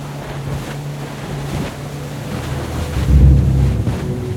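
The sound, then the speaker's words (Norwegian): A motorboat speeds across open water toward Utøya, its engine a steady low drone mixed with wind buffeting and splashing, growing louder and heavier in the last second or so. No voices. “Båten med Håvard Gåsbakk bak rattet gjør endelig god fart.”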